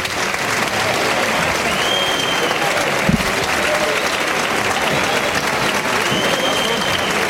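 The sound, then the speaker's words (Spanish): A bullfight crowd gives a loud, dense ovation to bullfighter Finito de Córdoba after his muleta work. The applause is continuous and unbroken throughout, with no clear lull. “Bueno, pues el público que agradece la actuación de, de buena voluntad que ha tenido Finito con la muleta, de gran técnica y conocimiento”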